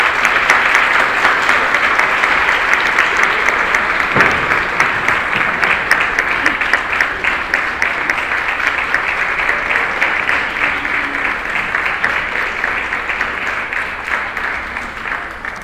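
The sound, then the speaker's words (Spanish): Audience applause at a book presentation event, dense steady clapping that fills the whole stretch without a break, alone and without talk. “les pediría un aplauso para que nos acompañen aquí a Ángeles Mastretta, a Marta Lamas y a Julián Cruz Alta.”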